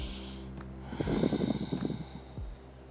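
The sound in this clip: A single deep breath, quiet and rough with a slightly snorting, nasal quality, drawn in for about a second in an otherwise hushed stretch.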